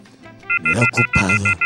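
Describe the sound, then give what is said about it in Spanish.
A telephone busy signal pulses as a string of short, bright tone bursts in an uneven rhythm, mixed with a low, humming voice-like sound beneath. “Me da ocupado. Tranquilícese, señor. En cualquier momento va a poder comunicarse.”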